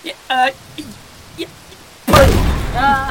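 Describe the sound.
A demonstration shot is fired from the defences in a tabletop role-play game. After brief talk, a sudden loud blast breaks in and trails off as a rumbling wash, with a voice speaking over its tail.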